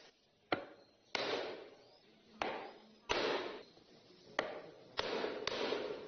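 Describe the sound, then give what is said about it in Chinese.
Knife carving a printing stencil board for traditional dye printing, cutting a hand-drawn pattern: several faint, sharp knocks, each followed by a soft rasping scrape, repeating at an uneven pace. “制版的时候刀直刀一定要直，手很稳，制出来的图案它的花纹很圆润。 依据手绘稿雕刻花板是印染技艺的难点，”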